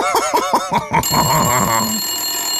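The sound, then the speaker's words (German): A telephone rings with an incoming call. A bright, warbling electronic ring pulses rapidly for about a second, then settles into a sustained buzzy tone, with no talk over it. “das ist ein Anruf.”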